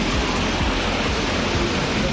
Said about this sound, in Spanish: Viento, lluvia constante, pero sin muchísima intensidad.